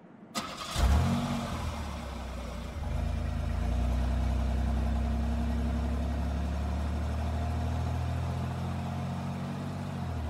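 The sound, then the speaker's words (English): A car engine starts with a short crank and burst, then settles into a loud, steady low drone as the car drives off. The engine noise swells slightly after a few seconds and then holds even, with no voices. “We drove to the Clark County Jail in silence.”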